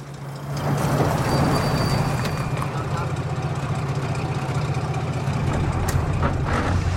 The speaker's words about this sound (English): An army truck drives along Dorian's street with soldiers sitting in the back. A taxi trundles along it, passing another motorized vehicle. The taxi, a Fiat, pulls up, and its passenger gets out.